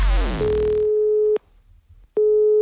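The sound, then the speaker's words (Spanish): A telephone ringback tone plays while an incoming call connects, a steady mid-pitched tone sounding in two long pulses separated by a short silence, following a brief burst of other sound at the start. “Porque está a punto de recibir la llamada de San Bernardino para rellenar la documentación Missen Macken.”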